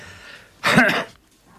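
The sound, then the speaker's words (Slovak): A single short, harsh cough, one loud burst lasting under half a second against a quiet background. “budem sem tam kašľať”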